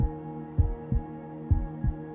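Heartbeat sound effect, a pulse settling into a steady rhythm: four soft, low thumps grouped in two lub-dub pairs over a faint continuous hum.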